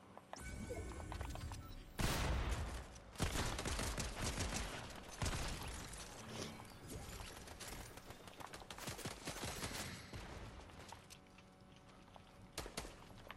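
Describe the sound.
Video game gunfire in a battle match: many rapid, loud shots and bursts crackle in dense clusters, some sharp single cracks standing out among sustained volleys, with no talk.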